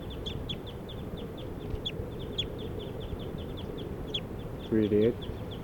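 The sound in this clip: Rapid, high chirping calls from numbered birds repeat many times in a quick, steady series over a constant insect-like hiss. A short, louder harmonic cluck stands out near the end.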